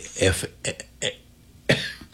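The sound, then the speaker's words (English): A person coughs and clears the throat, a few short, rough bursts separated by pauses. The last burst comes after a longer gap. “excuse me, trying to cough”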